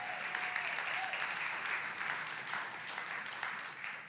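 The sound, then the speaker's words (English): Applause from an audience welcoming a guest speaker onto a stage: dense, steady clapping that holds at an even level throughout, easing slightly toward the end. “Well, thank you for the applaud and hello.”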